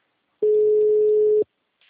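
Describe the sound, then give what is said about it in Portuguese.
A telephone line tone sounds during an attempt to place a call: one steady, clean, mid-pitched beep lasting about a second, with silence before and after it. “Tô tentando ligar aqui.”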